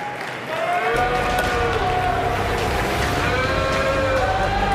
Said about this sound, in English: Thank you for the warm welcome, my friend. Not so warm. Boo! Boo! That's what that was.